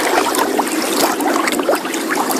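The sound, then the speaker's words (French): Water flows continuously without pause, a steady rushing hiss broken by small splashy trickles, with no talk over it. “Ah, on avait du feu tout à l'heure, là c'est de l'eau. Oh, là c'est de l'eau. Et il y a de l'eau qui s'arrête pas de couler.”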